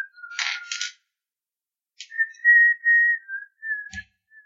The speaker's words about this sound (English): Can we please not whistle?